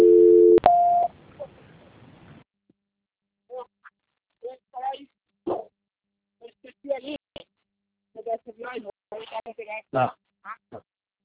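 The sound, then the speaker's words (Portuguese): A brief steady telephone dial tone and a single dialing beep as a call is transferred, followed by a hissy lull and then someone speaking in short bursts. “Só um momento, estou transferindo a ligação do senhor.”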